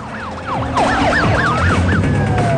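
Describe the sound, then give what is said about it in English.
Police car sirens wail in overlapping, rapidly rising and falling sweeps during a chase after high-performance street racing cars. Loud traffic and engine rumble run underneath. “Police cars pursue the street racers.”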